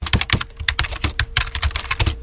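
Fingers type quickly on a computer keyboard, producing many crisp, uneven clicks of keystrokes in a continuous run with no voices.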